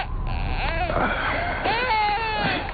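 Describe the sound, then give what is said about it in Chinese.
Infant crying in a few wavering, high-pitched wails that rise and fall in tone, with short breaks between cries. The crying is fairly loud and there is no clear speech. “不哭啊，乖，睡。”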